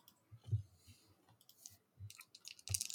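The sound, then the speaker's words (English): Metal dice rolled during a tabletop role-playing game: a faint, irregular scatter of light clicks and taps over about three seconds, with a brighter cluster of clatter near the end. “Fancy metal dice. Don't fail me now.”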